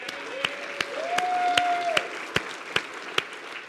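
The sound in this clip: Thin, scattered applause from an audience at a church gathering honoring its Sunday school leaders, with separate sharp hand claps spaced out over a faint murmur and a brief high whistle-like tone in the middle, fairly quiet overall.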